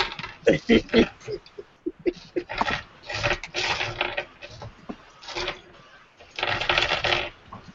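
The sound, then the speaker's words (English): Many tabletop dice, including D10s, clattering and rolling in bursts of sharp rattling clicks, loud at the start, then scattered taps and another dense rattle near the end. “That is a lot of dice, whoever's using.”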